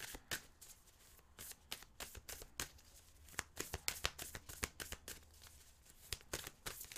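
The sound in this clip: Shuffling of a deck of affirmation cards: a long run of rapid, crisp flicks and riffles that keep going steadily for several seconds, heard alone without any talk.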